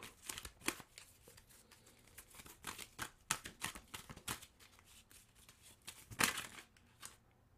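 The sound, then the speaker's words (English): Tarot cards being handled as one falls: crisp papery flicks and rustles, many short snaps throughout with a louder burst near the end, no voices. “Right, because the card fell.”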